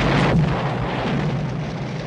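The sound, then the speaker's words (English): A Cadillac car explodes in a film scene: a dense, loud roar that holds steady for about two seconds without a break. “The Cadillac explodes.”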